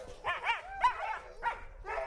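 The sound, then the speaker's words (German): Huskies, wolf-like sled dogs, barking and yipping in a run of short, high, overlapping bursts, with whining tones between the barks. “So zu reisen wie die Eskimos. Mit Schlittenhunden. Huskies.”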